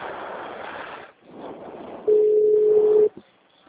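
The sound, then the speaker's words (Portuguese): A telephone ringback tone sounds while a call is being placed: a single steady, mid-pitched hum lasting about one second, following a stretch of rough, hissing line noise, with a brief click just after the tone stops. “Ligando.”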